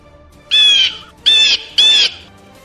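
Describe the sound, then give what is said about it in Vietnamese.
Three long, harsh screeches from a giant black-and-gold-feathered bird high in the sky, each about a third of a second, separated by short gaps, high-pitched and loud. “Trên bầu trời truyền đến tiếng rít dài đầy tức giận của chim bằng.”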